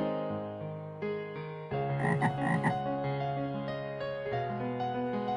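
Frog croaking in a continuous run of harsh, buzzy croaks, growing louder and denser through the middle before easing slightly, with no voices.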